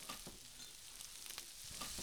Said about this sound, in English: And what we're going to do is fry the pork up until it's a little bit goldenish.